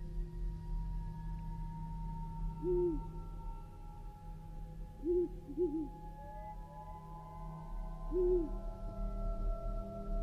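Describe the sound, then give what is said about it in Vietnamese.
Owl hoots come from afar in a gloomy, silent forest thick with long roots: a few short, low, rounded calls spaced several seconds apart over a steady low background hum. “Thỉnh thoảng lại có tiếng chim cú đâu đó từ xa, rúc vọng lại như là đang gọi bầy.”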